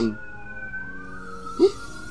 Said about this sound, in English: sirens coming down the road if y'all can hear that.